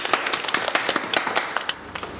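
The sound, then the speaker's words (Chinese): A small group at a farm guesthouse claps for their own achievement, many sharp, distinct hand strikes in an uneven, fairly light patter. “我们为我们的成绩鼓掌。 到底什么时候鼓呢？”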